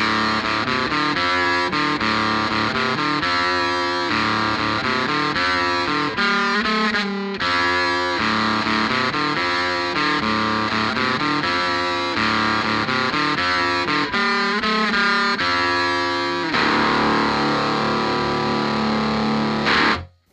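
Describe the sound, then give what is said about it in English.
A DoD Gonculator guitar effects pedal turns played notes into heavily distorted, buzzy, synth-like tones. Loud and continuous, its pitches shift from note to note, with a brief dip near the middle and a harsher burst near the end. “So yeah, that was the DoD gonculator. I think it sounded gonktastic.”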